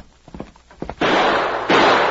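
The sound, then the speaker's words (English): Gunshots blasting the lock off a chest: after a few faint knocks, two loud, harsh bursts of noise follow in quick succession, each ringing on briefly. “It have lock. Can't open. Wait a minute. I'll shoot it off.”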